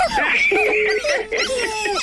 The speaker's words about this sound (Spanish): ¿Hoy están los perros y los puercos? ¿Vale? Se oyen muchos puercos y muchos perros.